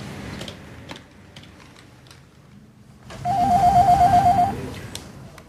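A telephone ringing as a call is placed to an office reception, heard as a steady pulsing tone of about a second. Light keyboard tapping clicks come before it.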